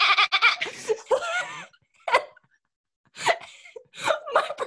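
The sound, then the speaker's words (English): A person imitates a goat's bleat during a Spanish class skit, giving several wavering, nasal voiced bleats in bursts separated by short pauses. “we open the box and the goat, there was no goat, but the goat is supposed to bleat. So I was the goat. Yes. So in the middle of Spanish class, I pop out with”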